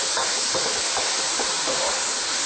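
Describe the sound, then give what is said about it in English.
Tofu in sauce sizzles as it is stir-fried and kept moving in a wok, a dense continuous hiss with no pauses, steady in loudness throughout. “I'm going to keep mixing it around to ensure that all the sauce coats all the tofu very well.”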